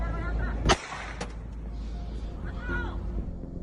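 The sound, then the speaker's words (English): Gunfire in a street in Cali, Colombia, during unrest: one loud, sharp crack followed by a fainter second crack, over steady background noise with voices audible later. “There's shooting at other locations in Cali that day.”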